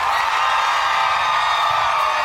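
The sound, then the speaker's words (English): An audience of women screaming on cue, a dense, continuous wall of loud, high-pitched screams and whoops that holds steady for the whole clip. “At a count of three, ladies, scream.”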